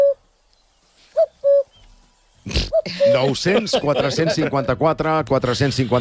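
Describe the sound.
A cuckoo calls, giving two clear, low, hooting notes close together after a faint earlier note. People then start talking loudly over the rest.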